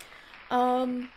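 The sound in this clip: A 'yay' cheer sound effect: one bright, voiced exclamation lasting about half a second over faint background hiss.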